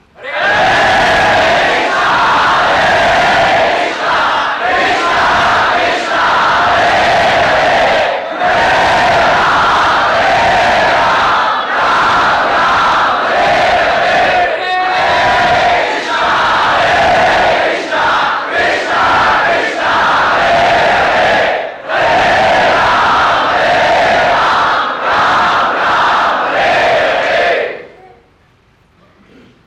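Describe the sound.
A large crowd chants the Hare Krishna mantra in loud, rhythmic phrases separated by short breaths, voices massed together throughout before stopping abruptly near the end.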